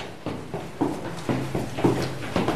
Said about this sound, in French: Alors, on descend encore quelques marches